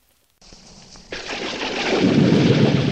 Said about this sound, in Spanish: Y de repente se larga a llover.